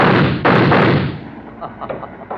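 Gunshots from a handgun in a small, dark place, a few sharp loud cracks in quick succession that ring out and decay into a fading rumble.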